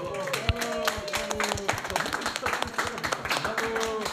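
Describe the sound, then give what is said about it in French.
Audience applause with individual claps standing out in an uneven patter, mixed with voices and tonal sounds throughout. “On peut applaudir Jean-Claude.”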